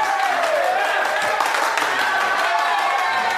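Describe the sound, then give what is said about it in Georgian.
An audience applauds and cheers for a maestro. Dense, continuous clapping with cheering holds at an even level for the whole moment. “აი არ წყდება, არ შეწყდება არასოდეს ეს ტაში, ოღონდ მართლა.”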